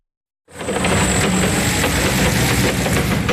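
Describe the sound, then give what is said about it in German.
A forklift engine running as it carries crate after crate of freshly picked apples from an orchard into a storage hall; after a brief silence, a steady, rough mechanical drone starts and holds at an even level. “Mit einem Hubstapler fährt Stefan Anderes Kiste um Kiste, randvoll mit frisch gepflückten Äpfeln von seiner Obstanlage in die Lagerhalle.”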